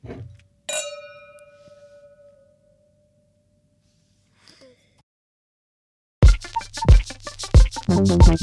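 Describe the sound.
Glasses clink together in a toast, giving one bright, ringing chime that decays slowly for over a second. After a quiet pause, people begin talking.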